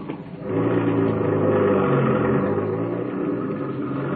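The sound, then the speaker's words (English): A car making a U-turn gives off a steady engine rumble and whir that swells within the first half second and then holds at a fairly even, moderately loud level. “I hope there wasn't no cop seen me make that U-turn.”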